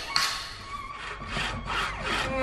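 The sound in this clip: Sawing through wooden boards as a carpenter hurriedly cuts planks he has measured and chalk-marked before a show; rhythmic rasping strokes repeat steadily at moderate loudness, with no voices.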